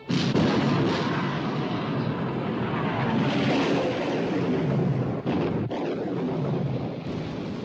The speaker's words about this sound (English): Open fire, Captain. Open fire. Fire!